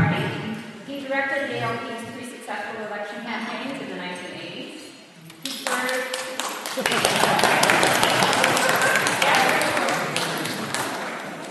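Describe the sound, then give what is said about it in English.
An audience at an international aid conference applauds after a voice speaks. Dense, broad clapping swells in and holds loud and steady to the end. “That deserves an applause as well.”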